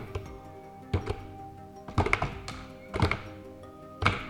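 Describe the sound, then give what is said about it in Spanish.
Heavy tapping imitates slow footsteps: a few dull thuds land roughly a second apart, each loud and short against a quiet background. “Pasos lentos, así.”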